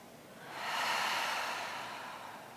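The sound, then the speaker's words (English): A single long exhale through an open mouth during a guided breathing exercise, a soft breathy rush that swells, holds and slowly fades, with no talking. “Empty out all of your air. Fill up your lungs. Open mouth, exhale. Again.”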